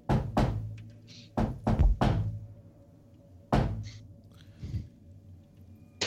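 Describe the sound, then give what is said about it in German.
Heavy knocks on a door come in irregular clusters, loud dull thuds separated by quiet pauses, with a softer knock toward the end. “klopft nochmal an, weil nichts passiert ist. Nochmal dieses.”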